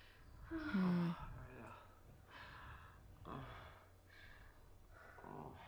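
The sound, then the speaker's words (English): A man is heavily out of breath, with faint, ragged gasping breaths coming in a few uneven bursts. Voices mix in with the breathing. “Unless he... he's out of breath.”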